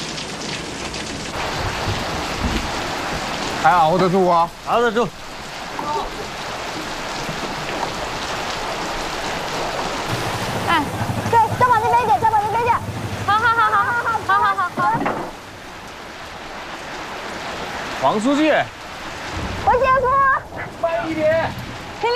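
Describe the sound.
Steady rain pours outdoors, a constant hissing patter throughout, while people talk and call out loudly over it at several points.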